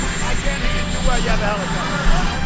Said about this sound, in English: Sorry, you have a helicopter roaring in the background.